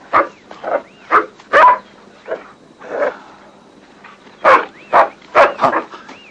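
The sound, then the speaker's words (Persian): Dog barking repeatedly in short, sharp bursts: a run of barks, a brief pause, then another quick cluster of loud barks. “ربی ربی کجایی ربی؟ ربی بایست سگ بیچاره ربی”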